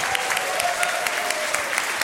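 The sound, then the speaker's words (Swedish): Audience applause at a live recording in the Fornsalen hall of Gotland Museum on a June evening, a dense and steady wash of many hands clapping at an even, moderate level throughout. “Och så vill jag säga hej till publiken, en stor applåd för att ni är här denna vackra soliga junikväll.”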